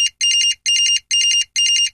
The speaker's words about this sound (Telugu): నాకు ఫోన్ వస్తుందండి, కాస్త మాట్లాడుకోవచ్చా?